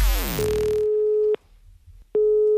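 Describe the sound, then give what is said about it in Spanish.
Telephone ringback tone as a prank call is placed: one steady, mid-pitched tone lasting about a second, a short pause, then a second identical tone starting. “Porque está a punto de recibir la llamada de San Bernardino para rellenar la documentación Missen Maken.”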